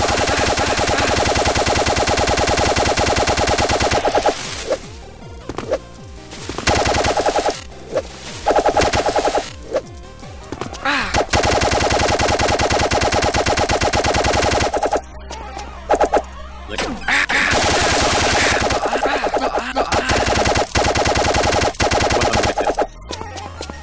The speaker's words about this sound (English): A lot of extra shots to kill that one.